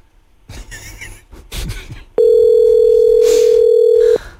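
A loud electronic telephone tone sounds as one steady, unbroken pitch for about two seconds, then stops abruptly, after a few brief, softer noises.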